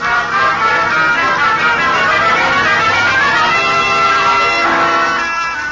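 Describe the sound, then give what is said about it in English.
A car speeds along, its engine and road noise forming a loud, steady roar that holds for several seconds before easing slightly at the end. “Back in the car, speeding north, you lean back in your seat, pleased with the way things have turned out.”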